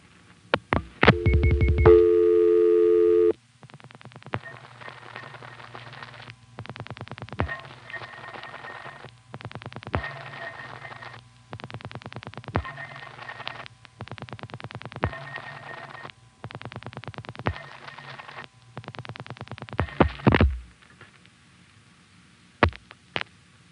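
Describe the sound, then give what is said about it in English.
Placing a telephone call to another central office in Chancellor, Virginia: a brief steady tone, then many groups of rapid clicks separated by short quiet gaps over a faint hum, ending with a few isolated clicks. “Now let's call the other Chancellor Wire Center, which has the code 786.”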